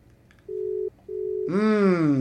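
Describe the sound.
Telephone line tone heard while a call is placed: two steady, even beeps with a short gap between them, followed by a loud, sustained harmonic sound.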